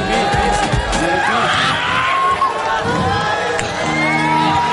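A cheering audience: loud, continuous crowd noise with whoops and shouts that holds steady without breaks.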